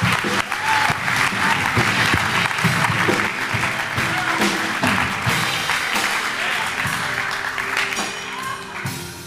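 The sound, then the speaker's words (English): The audience at C3 Powerhouse church applauds to welcome their pastor: a loud, continuous wash of clapping lasting about nine seconds that thins slightly toward the end. “So church, C3 Powerhouse, I want you to put your hands together and welcome prophet, anointed, apostolic leader, Pastor David McCracken.”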